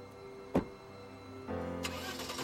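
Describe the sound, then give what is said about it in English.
A car engine starts as the car drives off at night: a sharp knock first, then the engine catches and runs in a steady, mid-pitched hum. “as she drives off into the night”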